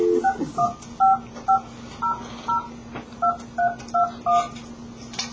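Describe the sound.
Telephone keypad dialing: a string of short, clipped dual-tone beeps in an uneven rhythm with brief gaps, over a faint steady hum.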